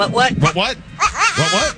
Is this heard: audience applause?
no